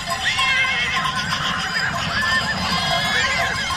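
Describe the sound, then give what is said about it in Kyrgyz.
Wild horses in a small town in Spain neigh and whinny, with loud, shrill, wavering calls that overlap and follow one another almost without pause for the whole stretch. “Испаниянын Амил шаарчасында жапайы жылкыларга арналган жылда кайталануучу кызыктуу көрүнүш башталды.”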